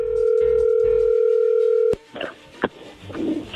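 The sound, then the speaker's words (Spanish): A steady, loud telephone line tone holds for about two seconds while a call goes through. A sharp click cuts it off, then faint scattered noises. “A ver, allí entró la llamada, no hagan ruido.”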